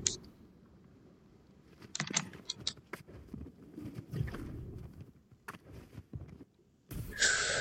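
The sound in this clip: A keyboard's space bar is hammered during a Deathrun jump game. Faint, irregular clacks and taps come in scattered clusters over a soft background.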